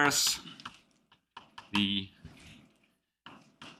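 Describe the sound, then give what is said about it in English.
Faint keyboard typing while a note is written, with short irregular bursts of clicks separated by pauses and a few louder keystrokes. “And so I will just write it very vaguely.”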